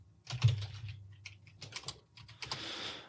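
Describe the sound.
Typing on a computer keyboard while entering a web address, with many quick, irregular key clicks in uneven bursts over a low steady hum, no voices.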